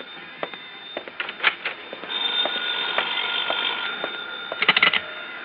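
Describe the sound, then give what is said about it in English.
A telephone rings: a few short clicks give way to a sustained, bright electric ringing through the middle, then a brief final burst of ringing near the end. “That's my phone.”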